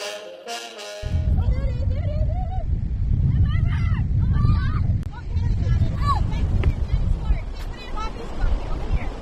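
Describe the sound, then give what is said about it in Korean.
Strong night wind by the sea at the Outer Banks, a loud, low buffeting roar of gusts that continues almost throughout, with voices heard over it. “다들 손에는 그물채와 양동이 그리고 손전등을 들고 있는데요. 아우터뱅크스 밤바다의 세찬 바람 따위는 아랑곳하지 않습니다.”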